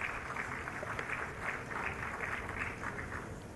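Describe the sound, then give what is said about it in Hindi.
An audience applauds a handloom sari weaving award winner at a ceremony with a steady, continuous patter of clapping hands. The clapping stays even and moderately loud from start to finish. “Shri मरकला Nataraj, जोरदार तालियों से अभिवादन कीजिए”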